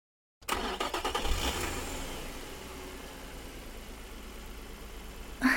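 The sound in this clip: A sports car engine starts abruptly out of silence with a quick flurry of revs, then settles into a steady idle hum before a brief louder burst at the very end.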